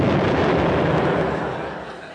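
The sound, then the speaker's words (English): An explosion sound effect bursts as a broad, roaring rumble that holds steady and then gradually fades away. “Tawdry exploded.”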